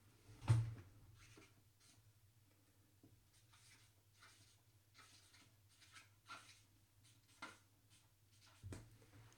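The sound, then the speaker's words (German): Handwriting: faint scratchy strokes of a pen or marker in a few short bursts separated by pauses, over a steady low hum. “Ich schreibe es mal dazu, das ist der erste.”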